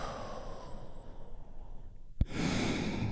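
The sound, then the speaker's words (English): A deep, slow breath drawn in softly, then after a brief pause released as a louder, fuller exhale that holds steady to the end. “Just take a big, deep healing breath with me right now. Here we go. And release.”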